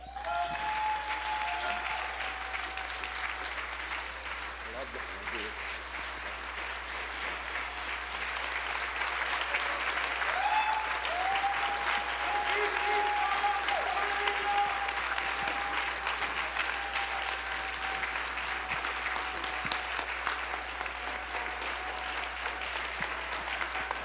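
Sustained applause from a church audience at a missions convention, welcoming a missionary couple. The clapping is dense and steady throughout and swells slightly louder midway.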